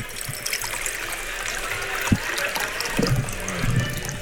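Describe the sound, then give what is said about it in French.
Water is poured over white beans to soak them, a soft steady trickle with a few low knocks, all fairly quiet. “les haricots blancs que tu vas détremper, hein, c'est ça. Exactement. Voilà. Donc là, dans l'eau. Hop, l'eau, super.”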